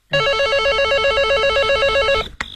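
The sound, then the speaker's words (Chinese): An electronic telephone ring in a police detectives' duty office late at night: one loud, continuous warbling trill lasting about two seconds, heard alone and ending in a short click. “正在这时，电话铃响了起来。”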